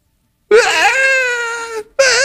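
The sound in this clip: A voice imitates a 3- or 4-year-old boy's tantrum crying: a loud, sustained wavering wail that breaks off, followed by a second wail that is cut short.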